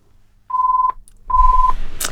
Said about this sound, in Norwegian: Da skal vi se, da var det en telefon.